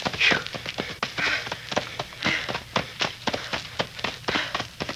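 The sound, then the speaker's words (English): Running footsteps through knee-deep fallen leaves: a fast, steady rhythm of many rustling, crunching thuds with continuous leafy swishing between them. “Running through leaves up to my knees. We'll be through it in a minute. I feel like I'm trying to run on inner spring mattresses.”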